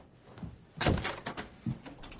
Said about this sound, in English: closes the door.